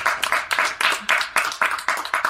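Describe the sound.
Live audience applauding at the Wicked Library Halloween Special show, a small crowd producing many sharp, separate claps in an uneven rhythm rather than a smooth wash.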